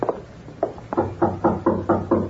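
Knocking on a door: a steady series of firm, evenly spaced raps.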